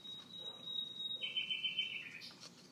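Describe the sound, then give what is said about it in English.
A nightingale sings faintly in the background: a few sustained, high, whistled notes, one long steady tone followed by a slightly lower held note, with no talking. “That's a nightingale in the background, folks.”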